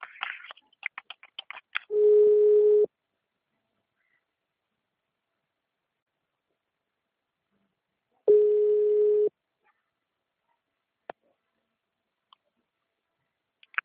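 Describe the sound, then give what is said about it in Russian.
Ringback tone on a telephone line while calling someone: two steady, mid-pitched tones of about a second each, separated by a long silence, with a few scattered clicks and line crackles around them. “Сейчас я ее наберу. Не вешайте трубку, сейчас я подключу.”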